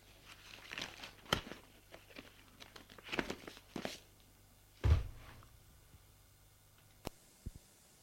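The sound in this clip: Quiet crinkling and rustling of a paper advertisement being taken from a pocket and unfolded, coming in a few short, irregular bursts with one heavier soft thump partway through, then sparse faint ticks.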